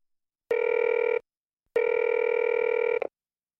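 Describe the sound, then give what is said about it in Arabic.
A telephone rings on an outgoing call: two loud, steady electronic ring bursts, the first shorter and the second longer, separated by a brief silence. “اتصلت به بعد ثلاثين دقيقة بالضبط.”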